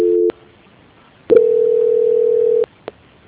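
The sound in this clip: A telephone call-transfer tone: a short steady beep, a pause, then a longer level mid-pitched tone that cuts off abruptly, followed by a faint click.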